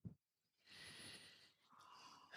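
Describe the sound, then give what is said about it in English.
A slow, deep breath taken during a guided grounding moment at a spiritual gathering. Two long, soft, airy passes of breath follow a tiny opening blip, faint and with no talk. “If you'll join me in a deep breath,”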